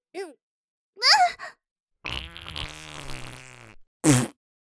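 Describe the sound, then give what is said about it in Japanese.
A fart from someone who had wanted to slip away to a borrowed restroom: a few short squeaky bursts, then a long, low, rasping blast and one final sharp burst, with no talking. “こんな風に人前でおならしたくなかったからお手洗い借りようとしたのに。くっそ、まだ出そう。”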